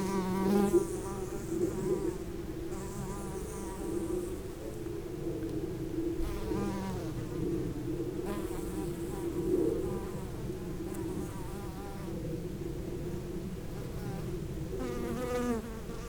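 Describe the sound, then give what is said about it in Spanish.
Bumblebees buzz around a flowering plant, a faint, continuous insect drone with several louder passes as individual bees come close and drift away, with no talk. “También está florecido. Le andan los abejorros.”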